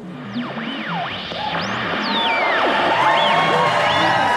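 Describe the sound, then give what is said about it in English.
Fake audience cheering sound effects: swooping whoops and whistles glide up and down over a bed of crowd noise, with the roar swelling louder partway through and staying full to the end. “Okay, I think I have the fake audience noises all queued up here. Take it away, sir.”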